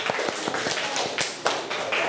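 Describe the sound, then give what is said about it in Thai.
Children in a classroom clap for a classmate, with brisk, uneven claps and taps rising over a steady, noisy background. “ปรบมือให้ปอโต้หน่อย”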